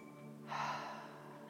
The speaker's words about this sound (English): filling our lungs and exhaling with an open mouth. Exhale all of the breath.